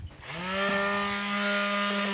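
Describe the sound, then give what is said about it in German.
An electric grinding machine is switched on at a water sports club. Its motor spins up quickly from quiet into a loud, steady whine with strong ringing harmonic tones that holds to the end. “So, dann werde ich jetzt mal hier meine Schleifmaschine anschmeißen.”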